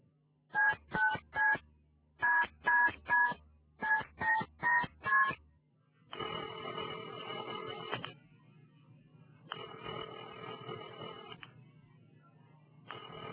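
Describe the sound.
Touch-tone beeps dial a telephone number in three quick runs of short tones. Two long, steady ringing tones follow as the call to a family home rings unanswered.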